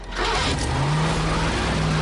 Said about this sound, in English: He waggles his knife and the engine starts.